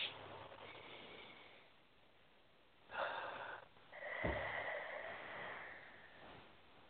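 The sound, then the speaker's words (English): A slow, deep breath drawn during a guided relaxation exercise: faint, airy breathing with two soft swells of breath noise, the second longer and more drawn out, and no talking over it. “And just take a nice deep breath.”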